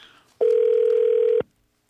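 A telephone tone on an outgoing call sounds as a single steady, clear, mid-pitched beep lasting about a second, heard alone before falling silent.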